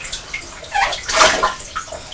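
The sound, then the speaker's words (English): Water poured slowly from a watering can onto a water wheel: a steady splashing wash that swells in the middle and then eases off. “How about putting some water into one of these watering cans? And instead of using the bucket, let's slowly pour the water up.”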